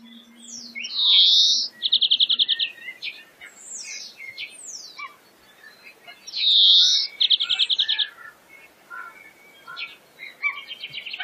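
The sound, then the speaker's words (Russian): A greenfinch sings two matching phrases. Each is a drawn-out wheezy note followed by a rapid run of high trilled notes, with softer chirps scattered between them. “Зеленушка.”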